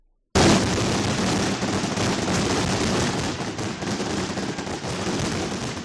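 A traca, a firecracker barrage at a pyrotechnic show in Madrid, bursts in abruptly as a loud, dense, continuous stream of rapid cracks and bangs that keeps going without a pause.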